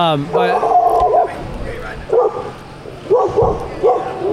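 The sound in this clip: A dog gives a series of whiny, high-pitched yips and barks: a longer run at the start, then a few shorter bursts spaced across the rest, fairly loud.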